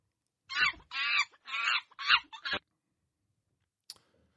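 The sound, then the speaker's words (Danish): Short banana republic jingle: a handful of clipped, voice-like bursts in quick succession, sounding almost like clucking, followed by silence and one faint high click. “Og måske et tegn på bananrepublik. Så kan vi måske lige spille den jingle, vi har for det.”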